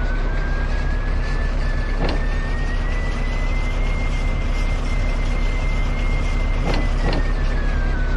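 A truck engine in a video game drones loud and steady throughout, a broad rumble with a thin, faint whine running over it and no voices.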